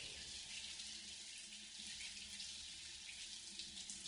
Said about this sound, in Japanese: お湯が流れる。右側の髪から泡が流れて消える。